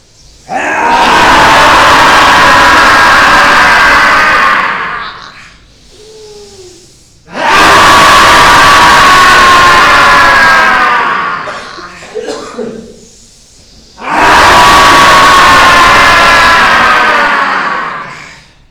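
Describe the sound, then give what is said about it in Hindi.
A group exhales forcefully through open mouths in yoga lion pose while seated in vajrasana. Three long, loud, roaring breaths of about five seconds each are separated by short pauses. “लंबी गहरी सांस लेंगे और मुंह से ज्यादा से ज्यादा सांस बाहर छोड़ते हुए सिंहासन करेंगे।”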